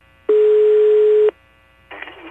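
A telephone dial tone plays while a call is being placed: a single steady, mid-pitched tone lasts about one second, followed after a short pause by a brief, fainter burst of line noise.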